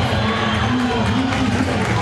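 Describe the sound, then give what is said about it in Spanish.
A stadium crowd roars and cheers for football player Merentiel during a match. The loud, dense wash of many voices runs on without a break and at an even level. “Y la gente lo aplaude a Merentiel, lo quiere, ¿eh?”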